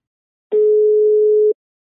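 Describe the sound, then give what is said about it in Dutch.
A single steady telephone tone, about one second long, sounds alone as a call is placed. “Ik ga bellen met Hans Brinkhuis van Voedselbank Zaanstreek.”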